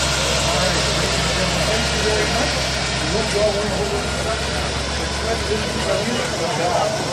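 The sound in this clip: An old flathead car engine idles at a car show awards event, a steady low rumble running throughout beneath people talking.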